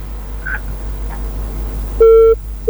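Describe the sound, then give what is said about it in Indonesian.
Disconnect beeps from a dropped call-in phone line: one steady, mid-pitched tone of about a third of a second, then the start of a second tone. Faint line hiss and soft murmurs come before them. “Ya, terputus. Boleh dicoba lagi deh”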